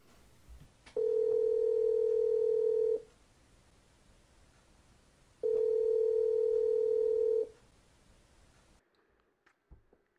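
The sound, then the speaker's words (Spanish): A telephone line tone plays as a call is placed: a steady, loud, low hum sounds for about two seconds, falls silent, then repeats once more for the same length. Faint rustling and a few soft clicks follow. “A ver, espera que lo marco.”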